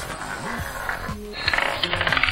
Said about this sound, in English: I've replaced the numbers on a roulette wheel with the names of investment gurus. I'll spin the wheel and roll the rumble